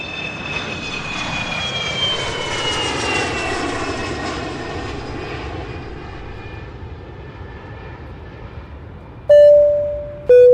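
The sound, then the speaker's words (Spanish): Airplane engines roar during takeoff, a loud, steady rush with high whining tones that slowly fall in pitch as it goes. Two short electronic chime tones sound near the end. “Por favor, abrochen sus cinturones que ya vamos a despegar.”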